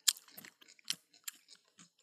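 Crunchy chewing of brine-pickled cucumber chips: several crisp, irregular crunches and bites, each a sharp snap followed by softer mashing, heard alone without talk.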